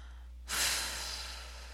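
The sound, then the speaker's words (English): A single deep exhale during a guided breathing exercise. It is a soft, breathy rush that swells quickly, then tapers slowly over about a second, heard alone without talk. “take one more deep breath in. Stretch up and out as is best comfortable for you. And when you exhale,”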